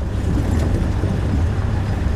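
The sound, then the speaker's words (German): A jeep drives through bushland at night with a steady, broad low rumble that runs unbroken, with no distinct events, under a haze of wind noise. “Diesmal fahren sie in einem Jeep.”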